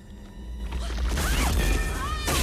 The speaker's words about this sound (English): Suddenly, the ground beneath their feet starts to tremble and cracks open into deep fissures.